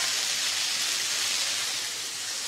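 Vegetables sizzle in a frying pan, just barely cooked, with cabbage among them. A steady, even hiss holds at the same loudness throughout, with no talk.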